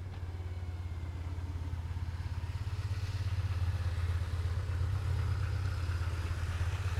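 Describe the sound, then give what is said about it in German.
Motorcycles pass by with a low, throbbing engine drone that swells slightly partway through and then holds steady. The drone is moderately loud over faint background noise, with no voices. “weil hier kommen nämlich dauernd irgendwelche Motorradfahrer vorbei”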